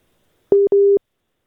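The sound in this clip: Busy tone after a dropped phone call: two steady mid-pitched electronic beeps, separated by a short gap and surrounded by silence.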